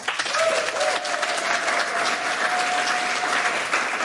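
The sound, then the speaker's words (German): A studio audience at an evening talk show applauds warmly, with thick, continuous clapping that holds a steady level throughout. “unter den Augen eines sehr, sehr sympathischen Publikums, das folgendermaßen klingt”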